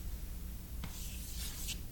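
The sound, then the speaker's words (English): Faint scratching strokes of drawing a picture of the earth on a board, with a few short, dry scraping marks over a low, steady background hum. “Hyperborea, let me draw an earth on here.”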